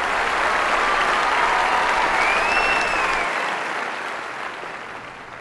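Dense, steady applause from many hands keeps a continuous crackling roar that eases slightly in loudness toward the end.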